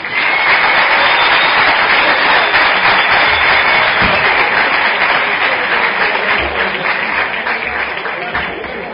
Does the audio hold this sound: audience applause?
yes